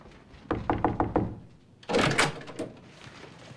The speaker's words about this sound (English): Someone carrying a torch opens a door and heads into a bedroom where a couple are asleep.